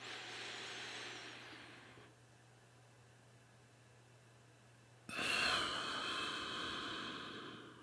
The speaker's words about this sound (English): The first is to inhale to the count of four, hold for four, and then exhale for four. So something like this.